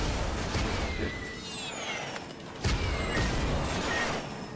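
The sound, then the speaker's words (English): Missiles fired at the Devil Guardian boss in a video game, a dense, continuous roar of noisy blasts with a sharper burst midway and faint whistling tones over the top. “Alright, I'm gonna start shooting, so hopefully I can hit him with two missiles.”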